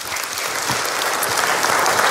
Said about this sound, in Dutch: Graag je applaus voor Jasper Poisson.